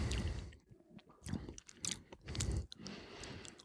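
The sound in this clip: Chewing of a small, firm piece of cheese while tasting it: several rhythmic, moist mashing and crunching bites repeat in uneven pulses.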